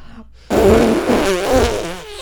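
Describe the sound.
A voice imitates a loud fart in a single long, buzzing raspberry that sets in abruptly and holds for nearly two seconds, its rough tone wavering throughout, with no talk over it.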